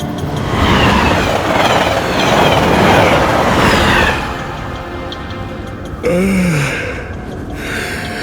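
Loud, steady rumble and rattle of an ICE train travelling to Munich, easing to a softer running noise partway through, with a brief tone falling in pitch near the end.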